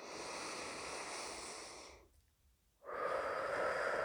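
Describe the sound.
Long, airy breaths during a guided breathing exercise: a steady, rushing breath of about two seconds, a brief pause, then a louder breath that continues to the end.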